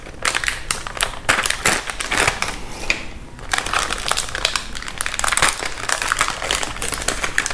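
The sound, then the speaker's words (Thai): Sealed packaging on an inner box of astaxanthin supplement capsules is torn open, giving dense, loud crinkling and ripping. Many sharp crackles run almost continuously, with a brief softer stretch partway through. “ด้านในก็จะเป็นกล่อง ซีลมาอีกชั้นหนึ่งนะครับ แล้วก็มีวันที่หมดอายุบอกนะครับเดี๋ยวเรามาฉีกดูนะครับ”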